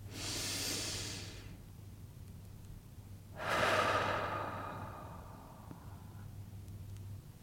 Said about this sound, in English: And join me in taking another breath.